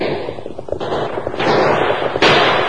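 Gunfire in a western radio drama shootout: quick sharp cracks and pops burst over a steady, dense rush of noise, with the noise growing louder in steps. No talk is heard.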